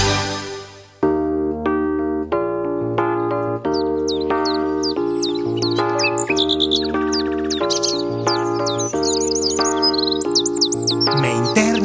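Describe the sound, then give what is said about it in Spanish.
A radio station jingle plays a steady run of bright, chime-like melodic tones topped by quick chirping, bird-like whistles, continuous and fairly loud throughout. “Con vuestro permiso voy a poner un jingle ahí.”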